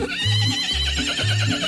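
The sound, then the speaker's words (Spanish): A mare neighs in a loud, high-pitched whinny that wavers and trembles throughout, over a low, pulsing rhythm underneath. “La yegua, vea.”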